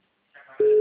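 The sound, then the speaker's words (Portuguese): A telephone tone sounds as a call is dialed: a steady, sustained electronic tone starts abruptly after a moment of faint noise and holds evenly to the end. “Vou fazer a ligação, tá, né? Vou ligar.”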